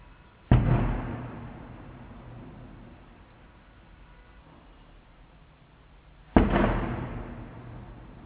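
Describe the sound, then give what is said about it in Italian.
Two heavy booms from fireworks bombs set off for a patron saint's feast, spaced several seconds apart. Each opens with a sharp loud burst that fades into a long, rumbling decay. “Il bombardamento è terminato.”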